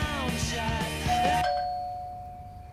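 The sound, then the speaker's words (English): A doorbell rings in a home, with bright tonal chime notes followed by a single sustained ringing tone that slowly fades out. “Was that you? The doorbell? Yeah, that was me.”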